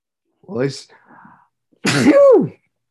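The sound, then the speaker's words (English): A single human sneeze: a short, voiced burst that ends in a falling vocal sweep, preceded by a softer breathy sound. “well, I sneezed.”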